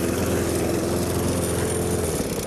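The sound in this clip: A lawn mower engine drones steadily while mowing the grounds beside a pond. It makes a loud, even, continuous hum with low buzzing harmonics and no pauses.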